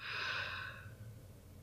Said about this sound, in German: Also, 4 Sekunden einatmen.